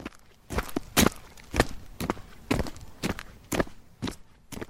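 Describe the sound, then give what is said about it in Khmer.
Footsteps walking on a road in a steady, even rhythm of many distinct crunchy steps, moderately loud and heard alone. “កលយ៉ានឯងមានលឺសំឡេងអីអត់ដូចជាសំឡេងដើរលើផ្លូវ”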